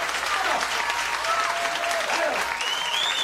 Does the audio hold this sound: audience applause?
yes